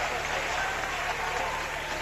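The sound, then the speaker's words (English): A crowd applauds a Cardinals basketball player as he leaves the floor after fouling out late in the game. The steady, even clapping continues under a man's voice talking. “19 points, he'll leave the floor. To a nice round of applause.”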